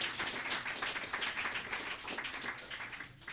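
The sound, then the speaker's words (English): Applause from an audience at a writing gathering, cheering on the books they plan to write this year: a steady, dense wash of many hands clapping that holds for the whole stretch without a break. “So all you guys, give us a hand for the great book you're going to write this year.”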